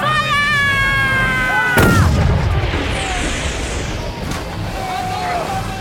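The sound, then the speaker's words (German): Ship cannons fire in a pirate sea battle against a frigate. Shouting voices give way to one heavy boom, followed by rushing, sloshing water noise while voices carry on underneath. “Ihre Kanonen schießen weiter als unsere! Die Fregatte schießt uns zu Kleinholz!”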